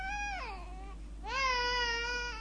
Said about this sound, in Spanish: ¡Shh! ¿Escuchan eso? ¿Es el llanto de un bebé?